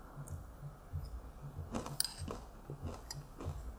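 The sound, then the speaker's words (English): Crunchy chewing of salted roasted sunflower seeds: a few soft, brittle cracks and clicks over low, steady background noise. “This is like roasted sunflower seeds with salt. Salted roasted sunflower seeds. It's very delicious.”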